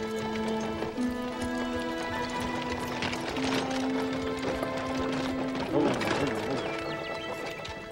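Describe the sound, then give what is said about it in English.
Hooves of a one-horse buggy clip-clop as it approaches. The steady, even trot runs throughout at moderate loudness, and a clatter briefly stands out near the end. “She waves to an approaching one-horse buggy that is driven by a young native man.”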